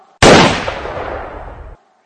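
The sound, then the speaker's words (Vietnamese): A single loud gunshot as a gun is fired: a sharp crack that bursts in suddenly and decays into a roaring tail lasting over a second before cutting off to silence. “Anh ta mím môi, chỉ mũi súng ra, ấn mạnh cò.”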